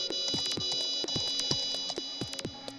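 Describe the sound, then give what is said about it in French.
An electronic alert sounds as many sharp beeping pulses repeat over a steady, bright high tone, loud and busy throughout. “Et cette alerte, c'est quoi”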